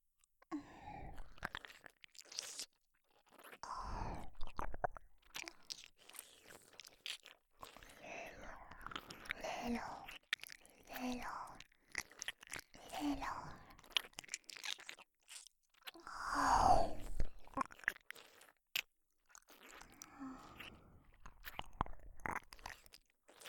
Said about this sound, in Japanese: 兄さんの耳、おいしいな。